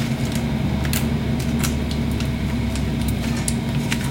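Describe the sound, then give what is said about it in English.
An air fryer runs with vegan cheese melting on top of bacon, giving a steady fan whir and low hum throughout, with faint scattered ticks and crackles above it. “And I am going to let that melt for a second in my air fryer on top of my bacon.”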